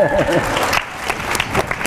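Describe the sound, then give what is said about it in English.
Audience applause at an award presentation, a dense wash of many hands clapping with a few voices mixed in, steady and loud throughout. “I know we could clap for every sentence, but we only have a limited amount of time”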